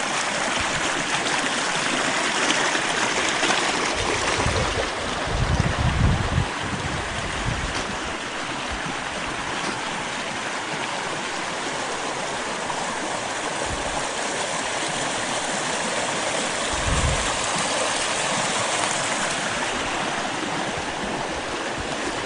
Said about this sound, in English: Like you can hear, the creek is roaring still.